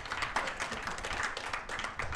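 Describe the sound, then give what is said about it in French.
Applause from a group honoring someone during a debate: many overlapping claps blend into a dense, even patter that holds steady throughout. “Je vous laisse l'applaudir.”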